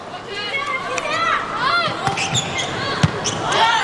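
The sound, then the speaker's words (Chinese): Sharp hit of a volleyball serve during a China versus Iran match, a thud or two rising above lively crowd noise with whistling horns, cheers and commentators talking. “杨树明上场发球，”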